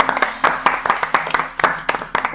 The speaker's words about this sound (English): Second of all, round of applause to you guys.